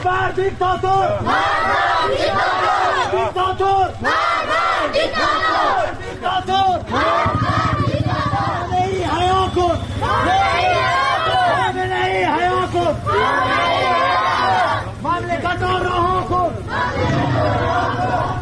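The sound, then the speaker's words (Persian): Crowd of street protesters in Iran chanting in support of Sunni cleric Molavi Abdolhamid: many voices shout loud, rhythmic slogans in unison, phrase after phrase, with steady crowd noise underneath throughout. “در شهر رازکم مردم معترض به خیابان اومدن، اونجا هم در حمایت از مولوی نقشبندی امام جمعه اهل سنت راز که به دادگاه ویژه روحانیت احضار شده اومدن تو خیابون، همچنین در حمایت از مولوی عبدالحمید که ما صدای اونجا رو هم داریم.”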